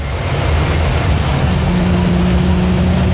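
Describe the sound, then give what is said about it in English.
Deep, steady engine rumble of a big alien vehicle driving on a road in a computer-generated scene, leaving a rut as it goes. The noise is loud, continuous and unbroken, with no talk over it. “Comes our big alien vehicle.”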